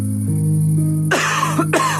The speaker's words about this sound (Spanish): Una tos puede convertir tus sueños en la peor pesadilla.